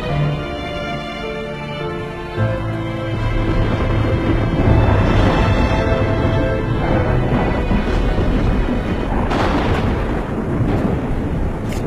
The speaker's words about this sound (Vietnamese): Cùng lúc ấy sấm sét trên tầng không cứ giáng đùng đùng, như đã đến đỉnh điểm của cơn cuồng nộ.